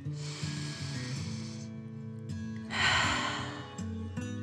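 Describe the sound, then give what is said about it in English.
A deep breath in and out during a children's bedtime relaxation exercise: a long, airy inhale, a short pause, then a breathy exhale, all over soft, steady tonal background music. “Again, squish your whole body together and relax. Take another deep breath in and out.”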